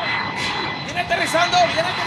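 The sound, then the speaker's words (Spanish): An airplane arriving to land at Tolú airport, its steady engine roar running beneath an excited crowd shouting and cheering. “tenemos el video de la llegada del avión al aeropuerto de Tolú en estos momentos”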